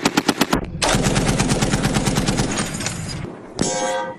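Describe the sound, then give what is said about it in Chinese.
Rapid automatic gunfire as a squad shoots from vehicles to suppress an enemy counterattack. A few sharp separate shots open, then loud, sustained continuous firing with a short break before another burst. “随后，全队依托载具展开乘车射击，持续压制敌方反扑。”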